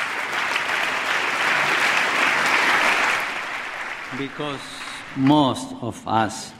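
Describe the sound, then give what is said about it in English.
Applause from Republican and Democratic lawmakers during the pontiff's speech on immigration: steady, dense hand clapping for about three seconds that fades away as a man begins speaking. “I wasn't there, but it sounded like that hand clapping came both from Republicans and Democrats.”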